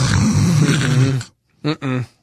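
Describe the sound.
A person speaks, then imitates snoring with two short voiced snorts in quick succession, the second slightly longer, each starting and stopping abruptly against silence.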